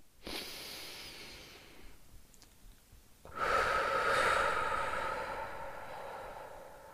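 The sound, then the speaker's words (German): A slow, deep breath in and then out while sitting comfortably: two long, soft, airy rushes separated by a short pause, the second louder and longer. No one speaks. “Setze dich bequem hin, atme einmal tief ein und aus.”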